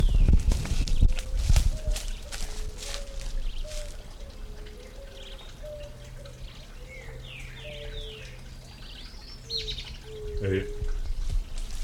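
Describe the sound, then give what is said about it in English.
Two birds call back and forth in a quick exchange, a run of short, soft, mid-pitched notes mixed with a few higher chirps, faint against a steady background hiss. “Two birds interacting for a second.”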